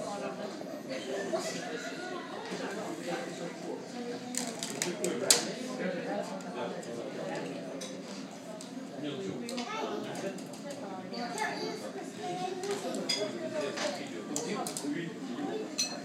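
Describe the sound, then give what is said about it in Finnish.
A Stockholm café bustles with frequent sharp clinks of dishes and cutlery over a steady murmur of chatter and voices, the clatter rising and falling throughout. “Otetaanpa vielä tunnelmakuvaa täältä kahvilasta.”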